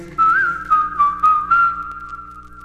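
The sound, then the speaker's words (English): A person whistling a tune, a clear, loud, steady pure tone that moves through a short melody of held notes, with small slides between a few phrases and no talking. “whistle while you work. Whistle while you work.”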